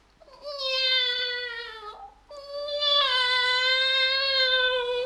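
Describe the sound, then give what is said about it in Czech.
Meow-like cry said to come from a coal-fired stove: two drawn-out, tonal wails. The first ends with a slight downward dip, and the second is longer and louder, with no talking. “A taky si mňoukla. Ještě nikdy jsem neslyšela naši pícku mňoukat. To opravdu mňouká.”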